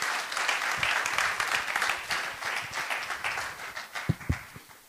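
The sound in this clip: A church audience applauds during a service. The fairly soft clapping forms a continuous patter of many hands, thinning toward the end, where a couple of sharper individual claps stand out.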